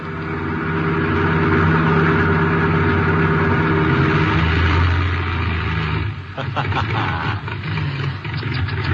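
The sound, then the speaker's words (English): Car engine running out of gas: a loud, steady low rumble holds for several seconds, then falters and sputters into uneven pulses toward the end. “Running out of gas, and me such a big boy.”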